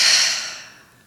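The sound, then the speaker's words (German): A deep, slow exhale through the mouth during a guided relaxation breath: a loud, airy rush that gradually fades over about a second, alone and without talk. “vielleicht magst du einmal mit mir gemeinsam ganz tief über die Nase einatmen und über den Mund aus”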